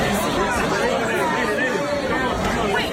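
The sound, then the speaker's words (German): Crowd chatter in an Ibiza club after a sudden power outage: many overlapping voices form a steady, dense babble throughout. “Wie wir hören, hören wir wenig. Nur Leute, die sich wahrscheinlich darüber aufregen, ja, dass der Strom plötzlich ausgefallen ist.”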